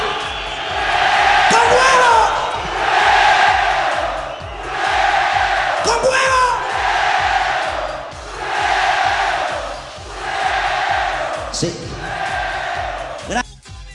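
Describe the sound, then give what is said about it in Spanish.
An audience chanting European-style football chants in loud unison, the voiced phrases swelling and repeating in waves about every two seconds over a steady, rhythmic low thumping beat. “Cuando el público empieza a entonar cánticos europeos,”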